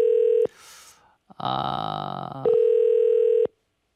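An unanswered telephone call's ringback tone: a steady electronic tone sounds twice, with a short stretch of different, rougher sounds between the two tones.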